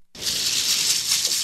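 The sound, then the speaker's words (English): A bag of Scrabble tiles jangling: after a brief moment of silence, a continuous, bright rattling clatter of tiles being shaken about inside the bag. “This is the sound of my obsession. For me, a jangling bag of Scrabble tiles is a rush of anticipation,”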